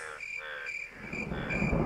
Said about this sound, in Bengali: রাতের ঝিঝি পোকার একটানা শব্দ ও ঘোর বর্ষণের পর ব্যাঙের ডাক দূর থেকে ভেসে আসছে